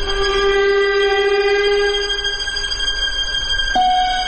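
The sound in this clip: An approaching train gives a sustained, loud, horn-like tonal blare over a steady low rumble of rail noise. The held tone shifts to a new pitch near the end.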